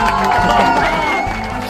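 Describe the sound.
Crowd cheering with whoops and clapping greets a returning sports jingle. A loud, steady burst of under two seconds carries tonal musical lines.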